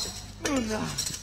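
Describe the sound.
Keys jingling as a wardrobe key is handed over in a staged play, a brief bright metallic clinking mixed with a voice.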